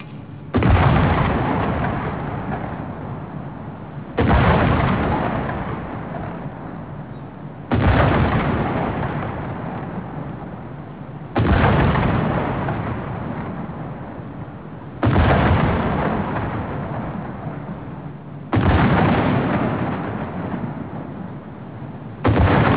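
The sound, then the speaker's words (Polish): Heavy artillery booms of the national gun salute for Polish Independence Day on 11 November 2019 fire in a steady series, one roughly every three and a half seconds, each loud blast slowly rumbling away before the next. “Z okazji Narodowego Święta Niepodległości salut narodowy!”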